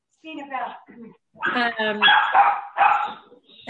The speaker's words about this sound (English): Sorry about the dog.